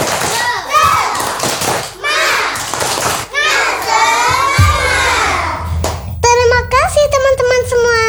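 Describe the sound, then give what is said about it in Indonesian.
Children perform the Indonesian tepuk semangat clapping chant in a studio, with loud shouted voices and rhythmic claps, ending in a run of sharp, evenly spaced claps under a chanted voice. “Sebelum kita lanjutkan, kita tepuk semangat dulu yuk. Ayo. Tepuk semangat.”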